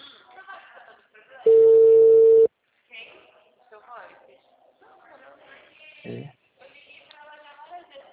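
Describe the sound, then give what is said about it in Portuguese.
One steady ringback tone of about a second plays on an outgoing telephone call. Voices and other sounds come before and after the clean, flat, mid-pitched beep. “Tá chamando.”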